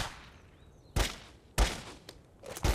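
Gunfire at the FBI firing range at Quantico: a few sharp, cracking shots spaced apart by quiet gaps, the last ones bunched close together.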